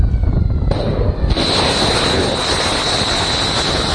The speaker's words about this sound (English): The sound of Tomahawk cruise missiles being launched on Wednesday,